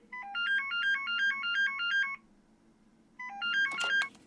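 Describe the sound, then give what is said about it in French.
A landline telephone rings with a bright, rapid electronic trill, one warbling burst of about two seconds, then a pause and a shorter second burst, with no voices. “Pourquoi tu m'appelles sur le fixe”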